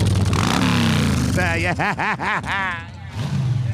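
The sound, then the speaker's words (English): A Honda motorcycle arrives with its engine revving, pitch climbing and dropping in a quick series of throttle blips, while people talk and cheer around it. “Here they come. Bike's coming in. Come on. Rev it up.”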